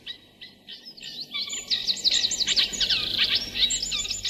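Bird song: a rapid, continuous stream of high chirps and trills from an exhausted bird with drooping wings, sparse at first, then growing denser and steady over a low background hiss.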